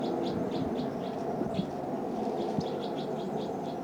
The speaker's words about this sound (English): hearing the next cell, birds calling a lot in the next cell.